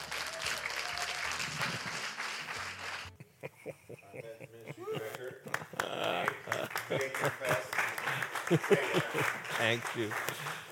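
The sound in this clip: Audience applause welcoming a men's ministry director to speak at a morning gathering: a dense wash of clapping that fades out as a man starts talking.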